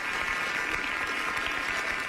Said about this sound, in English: one more time for John Martin getting that story up at The Athletic on Jeremiah Martin. One more time, a round of applause.